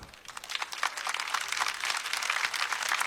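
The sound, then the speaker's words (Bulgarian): Audience applause welcoming drums, saxophone, bass and piano players onto a concert stage: many quick claps begin faintly and swell into a steady, fuller burst over about three seconds. “много моля за вашите бурни аплодисменти да посрещнем на сцената”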